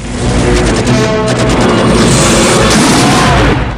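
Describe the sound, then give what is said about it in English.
Explosion in a Rambo film during a helicopter attack on a village, a loud, sustained, rumbling roar with crackling debris that holds at full strength throughout. “Rambo looks round. He sees a woman and baby killed in an explosion.”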